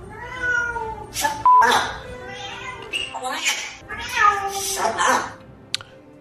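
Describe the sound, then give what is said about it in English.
A cat meows a few times in drawn-out, wavering calls while being trained to sit, the meows rising and falling in pitch with short pauses between them. “Sit, Kit. Sit. Sit. Get your butt down. A lot of people think you can't train cats. Yeah, but you can.”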